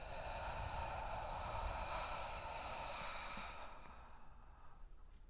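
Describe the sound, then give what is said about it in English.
Slow breathing, drawn in through the nose and let out through the mouth during a guided relaxation exercise, a soft, continuous airy rush that holds steady, then thins and fades toward the end, with no voices. “Inhale through our nose. Exhale through our mouth.”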